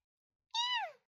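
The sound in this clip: A hungry kitten gives a single short meow, high and bright, sliding downward in pitch at its end. The meow is faint and heard alone.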